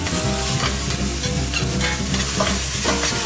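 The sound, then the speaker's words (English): Meat browning in a pan while it is stirred: a loud, continuous sizzle and crackle of frying with soft stirring scrapes running through it. “So my meat is now kind of browning.”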